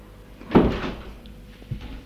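A door being opened: one short, dull clunk, followed after a pause by a fainter second knock, against quiet background noise.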